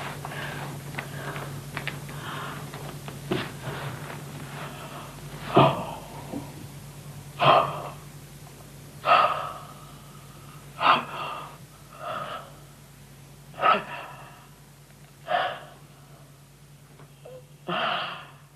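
Gasping breaths from a dance performance depicting a person's dying last breaths: many sharp, breathy inhalations recur every second or two, growing more pronounced as it goes, over a steady low hum.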